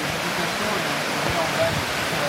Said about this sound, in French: C'est le long de la rivière, ça le suit la rivière.